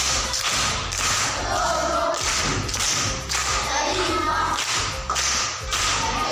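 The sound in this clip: Pupils at a primary school clap for a classmate, a steady loud patter of many hands with heavy thumps running throughout, no voices on top.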